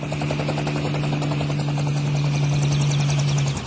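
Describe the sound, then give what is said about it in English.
A helicopter comes in to land at a resort city on the French Riviera. Its rotor chop thumps at a steady rapid rhythm over a sustained engine whine, loud and unbroken throughout. “a helicopter coming in for a landing”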